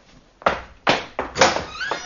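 Door sounds as a door is opened in a radio drama: a few heavy wooden thuds and knocks follow one another at uneven spacing, the last ones softer, with no voices.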